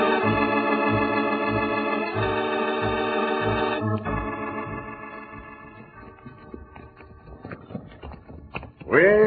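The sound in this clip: Horses riding in a Western radio drama: a steady clip-clop of hooves under sustained, held musical tones, and a voice breaks in at the very end.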